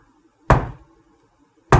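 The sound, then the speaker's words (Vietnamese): Knocking on a door in a ghost story: two loud, hollow thuds land about a second apart with quiet between them, forming an even, unhurried beat. “Đó vậy đó, cái kiểu gõ cốc, cốc, cốc vậy đó, nó đều vậy đó.”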